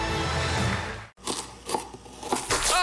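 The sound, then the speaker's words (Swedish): Crunchy bites into a McDonald's McCrispy, a few sharp, brittle crackling bursts that follow a brief silence. “Upptäck det vackra ljudet av McCrispy & Company för endast 89 kronor. En riktigt krispig upplevelse.”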